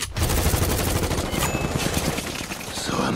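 Dense, sustained gunfire erupts after an order to fire at will, many rapid overlapping shots blending into a loud, continuous crackling barrage that runs steadily throughout.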